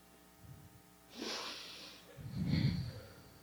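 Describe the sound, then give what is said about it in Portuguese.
A slow, deep breath during a guided breathing exercise, with an airy hissing inhale followed by a heavier, lower exhale, both quiet and heard on their own. “Vamos é respirar um pouquinho, né?”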